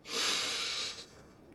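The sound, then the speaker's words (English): A single breath drawn in through the nose opens a laughter yoga exercise. It is a soft, airy hiss lasting about a second, then tapering into quiet. “So it begins with a breathe through the nose.”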